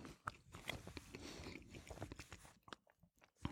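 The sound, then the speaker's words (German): Biting and chewing of bread between tastes of cheese, a string of crisp crunchy bites and moist chewing sounds, fairly quiet and irregular, with no talk. “Also ich muss jetzt auch zweimal abbeißen vom Brot,”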